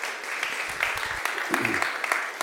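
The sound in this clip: Church audience applauding to welcome a guest speaker, a regional minister, with a dense, steady wash of many overlapping claps and frequent sharp spikes, holding an even, moderate level throughout.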